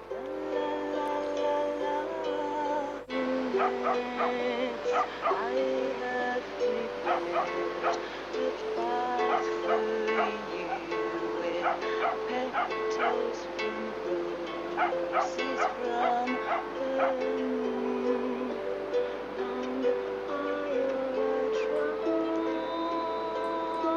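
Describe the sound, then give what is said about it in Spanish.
Dogs barking on San Lorenzo beach, with many short, sharp barks and yips scattered over a steady sustained tonal background. “Por eso oímos perros ladrando, está en la playa de San Lorenzo.”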